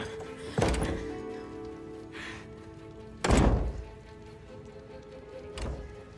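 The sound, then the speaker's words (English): Someone tries to open a door, producing three heavy thunks spaced a few seconds apart over a steady background hiss. “She goes to a door and tries to open it.”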